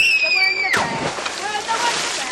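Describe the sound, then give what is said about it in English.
Water sloshes and splashes in the Severn River, where children are swimming. It is a continuous, moderately loud churning wash. “Evan Ramil is watching the kids swim”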